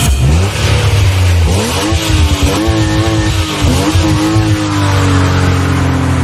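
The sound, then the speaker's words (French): A sports car accelerates hard, its loud engine note climbing in pitch and dropping back at a few gear shifts before rising again, heard alone without voices. “c'est une voiture qui accélère, une voiture de sport”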